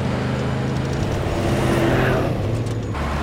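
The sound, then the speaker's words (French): Steady engine drone of a car driving behind and following another vehicle. The loud, continuous motor hum shifts in tone partway through, with no talk over it. “y a une voiture qui nous suit”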